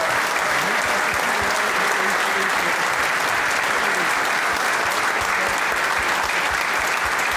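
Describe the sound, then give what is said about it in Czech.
Audience applause: thick, continuous clapping from many hands holds at an even, loud level throughout, with no clear break or pause. “Já, no samozřejmě děkuju za aplaus”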